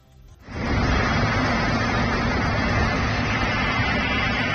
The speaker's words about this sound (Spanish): Así suena hasta ahora el lugar donde se ha desatado el incendio, del que se desconocen las causas.